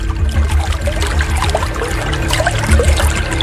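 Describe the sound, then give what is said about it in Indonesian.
Water streaming out of a small hole makes a steady trickling, splashing flow with bubbly gurgles, fairly loud and continuous, with no voices. “Hei, lihat airnya keluar dari lubang lidi itu.”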